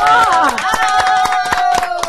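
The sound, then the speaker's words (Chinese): Clapping welcomes a special guest at a New Year show, with steady rhythmic claps beating under loud, excited voices. “掌声掌声 掌声”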